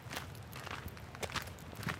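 Footsteps of someone walking on a path past sheep pastures near a visitor center, a faint series of soft, uneven steps.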